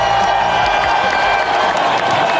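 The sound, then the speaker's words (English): A loud round of applause with cheering rises from an audience on a morning talk show. The clapping is dense and constant across the short stretch, with a few whoops on top. “big round of applause”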